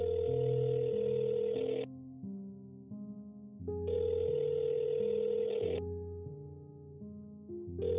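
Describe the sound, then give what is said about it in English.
A call connecting on a mobile phone gives steady electronic tones: two long, loud bursts alternating with quieter held tones, with no voices. “she pressed the button on the screen and could hear the call connecting.”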